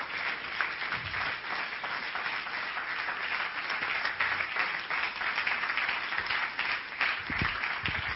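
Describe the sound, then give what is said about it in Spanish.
An audience at a church service applauds the young men from a centre. Many hands clap in a continuous, even burst that holds steady for about eight seconds, with a few low thumps mixed in. “Vamos a darle un aplauso a los muchachos del centro.”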